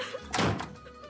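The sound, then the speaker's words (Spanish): A door slams shut with one heavy thunk that swells briefly and then fades into a faint, steady background hum. “Dijiste llorando mientras dabas un terrible portazo.”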